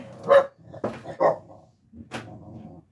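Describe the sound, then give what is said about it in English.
A new puppy barks several times in short, sharp yaps, loud with no talk over them. A pause follows, then one last bark. “Sorry about the dog. Yep, new puppy.”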